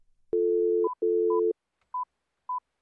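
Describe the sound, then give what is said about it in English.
Telephone tones sound while calling election-day hotlines: two long, steady low tones with short higher beeps over their ends, then two more short beeps alone. The tones are clean and moderately loud, with no voices. “The show's Lauren Gilger dialed a few numbers to see what kinds of calls they're getting.”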